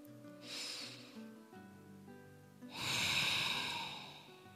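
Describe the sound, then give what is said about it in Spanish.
Two deep breaths are taken in a guided breathing exercise, first a soft airy breath and then a longer, louder rush of air, over faint sustained tones. “Entonces, primero vamos a respirar, dos respiraciones profundas.”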